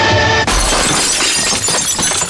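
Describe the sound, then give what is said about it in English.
Glass smashing as a policeman breaks a door pane to unlock the door: one sudden sharp crash followed by a loud, sustained spray of shattering and tinkling fragments. “The policeman smashes the glass at Salters”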